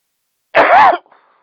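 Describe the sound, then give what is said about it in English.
Throat clearing from someone with something caught in the throat: one harsh, rasping burst of about half a second, followed by a few faint, scattered breathy traces. “Sorry about that. I had something caught my throat there.”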